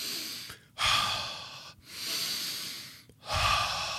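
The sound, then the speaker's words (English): Slow, deep breathing during a focused breathing exercise: a few long, steady breaths separated by brief quiet pauses, soft and airy, with no talk. “Take a deep inhalation. Exhale it slowly.”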